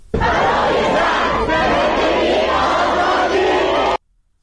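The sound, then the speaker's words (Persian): Students at a rally at the University of Qom chant slogans in unison, a loud, unbroken roar of many voices that stops abruptly after about four seconds. “همزمان ویدیویی از دانشگاه قم هم اومده که دانشجویان تجمع کردن و دارن شعار میدن که صدای اونم میشنویم.”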